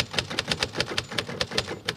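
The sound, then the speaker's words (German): Typewriter typing: many rapid, crisp key strikes in a steady, even rhythm, with a low mechanical rumble beneath the clacks. “Haben Sie noch eine Schreibmaschine auf dem Schreibtisch?”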